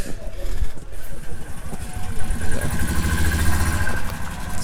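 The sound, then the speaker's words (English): The engine of a gas-guzzling vehicle runs at a zoo, a steady mid-pitched drone with a rough, continuous texture. Voices are heard in the background. “It's a real gas guzzlers there. You can smell the fumes. It's gonna be pretty stressful driving one of those things.”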